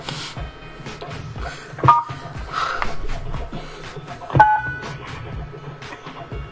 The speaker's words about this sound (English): I don't know why the fuck I can't hit these buttons and shit.